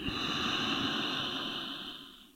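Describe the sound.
A single slow, deep inhale during a guided breathing exercise: a steady, airy rush of breath that holds even for about two seconds and then tapers off at the end.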